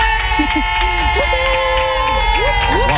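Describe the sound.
A studio morning team cheers and whoops loudly to welcome a guest joining their game. The cheering is dense and continuous, with scattered shouting voices rising through it the whole time.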